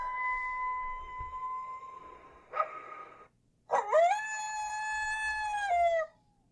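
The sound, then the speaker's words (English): Dog-like howling from a played recording of a purported Jersey Devil call: a long, steady tone, a brief harsh burst, then a drawn-out, strongly harmonic howl that holds its pitch and drops slightly before ending abruptly. “there's a distinctive dog sound to it.”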